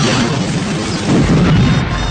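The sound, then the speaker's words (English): Loud rumbling roar of an enemy fighter craft exploding during a dogfight. It is dense and noisy, sustained throughout and swelling slightly midway, with no voices. “Sensors registered an explosion behind him”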